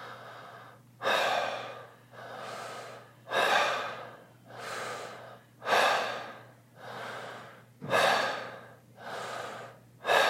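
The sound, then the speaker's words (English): Wave breathing exercise: deep breaths drawn from the belly up into the chest, each followed by a relaxed, let-go exhale. Many breaths repeat in a steady rhythm, loud and alone, with no talking. “now we start building more breath breathwave languages, although Wim uses this too, We start building the wave. So like a wave from the belly up to the chest, exhale is really just letting go.”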